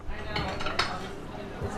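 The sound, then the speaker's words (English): Coffee shop ambience at the Backdoor Cafe in Sitka, Alaska: dishes and cutlery clink steadily over a continuous murmur of customers chatting. “Like any coffee shop, the Backdoor Cafe is a gathering place where residents talk about current events and local politics over mugs of hot espresso and steamed milk.”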